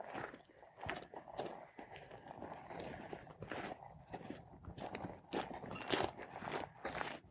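Large grazing animals chewing as they feed in wild Danish nature, a rewilding landscape, giving many irregular crunching bites and grinding chews in a steady, moderately loud rhythm, with no voices.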